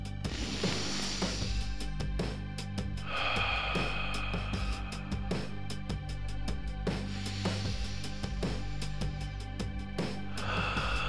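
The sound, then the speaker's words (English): A group of people taking big deep breaths together: a few loud, rushing inhales and exhales over a steady tonal background with many sharp clicks, and no speech. “Gather around close. Look each other in the eyes. And take three big breaths. That's right. One, two, three.”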